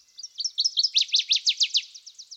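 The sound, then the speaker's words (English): Louisiana waterthrush song along a wooded creek: a rapid run of many high, slurred whistled notes that grow louder and clearer through the middle, then taper off into softer, quicker twitters. “Another bird which has interested me here is the Louisiana water thrush,”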